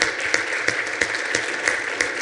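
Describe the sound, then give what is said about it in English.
Church audience clapping to welcome members across the valley and country, a dense, steady wash of applause marked by regular pulsing accents throughout. “But I want to give a clap offering to all the Rock Church all across the valley and all across the country. Let's welcome them this morning.”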